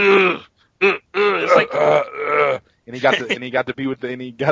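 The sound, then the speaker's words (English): A man's voice imitates an actor's groaning: a few drawn-out, guttural groans and grunts in separate bursts, with a longer sustained moan in the middle and choppier grunts toward the end. “All he did is groan around. It's like, he didn't really act. He just kind of went around going,”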